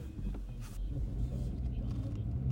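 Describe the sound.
Low, steady engine rumble of a car driving to a skate park, a deep continuous drone that stays even throughout.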